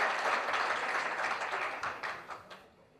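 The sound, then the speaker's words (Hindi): Audience clapping after a Rajasthani folk song is sung, a full burst of applause that thins and fades, ending with a few scattered last claps before quiet. “एक जोरदार ताली बजाओ तुम थाली के लिए।”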